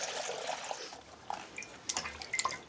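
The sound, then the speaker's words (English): Water drips and splashes as vegetables such as bok choy are washed in rainwater: faint, irregular small liquid taps and splashes, scattered unevenly, with no voices. “They trim the roots and use rainwater to wash the vegetables.”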